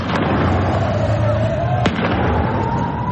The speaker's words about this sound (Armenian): Այս տեսագրության մեջ տեսնում ենք, թե ինչպես են բնակելի շենքերից մեկի կտուրին դիրքավորված իրանցի ուժայինները կրակ բացում բողոքի ցույցի մասնակիցների ուղղությամբ։